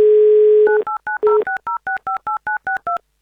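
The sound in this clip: A telephone number is dialled on a touch-tone phone: a steady dial tone gives way to a quick, regular run of many short two-note touch-tone beeps, each at a slightly different pitch, heard alone without talk.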